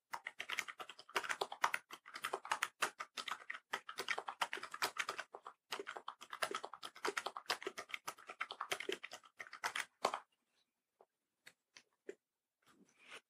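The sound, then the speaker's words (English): Typing on a computer keyboard in a new word-processor document: rapid, steady clattering keystrokes for about ten seconds, then a few sparse, isolated taps, fairly quiet throughout. “the word processor and I'll type something so that you can hear what the keyboard sounds like. And we're in a new document, and I'm going to type”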